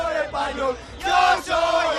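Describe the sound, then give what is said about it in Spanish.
People crowd into Cibeles square in Madrid to celebrate, their massed voices rising in loud chant-like bursts, with a short dip between two strong surges. “Este es el sonido de la Cibeles. Es increíble la cantidad de gente que se ha ido acercando hasta la Cibeles.”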